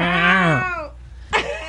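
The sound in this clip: Cats yowling while mating: a long, wavering, harmonic yowl that sags in pitch and fades, then a brief, sharp second cry.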